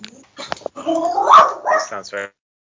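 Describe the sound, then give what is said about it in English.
A dog barks and growls in a few short, rough bursts with some higher yips, mixed in with people talking. “Sorry about my dog. No, even your dog agrees with me. He does. Yeah, he can't stop.”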